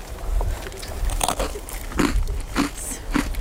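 Crunching bites into an individually wrapped, crunchy bean-paste sandwich biscuit, with a series of loud, crisp cracks and chewing crackles in an irregular rhythm.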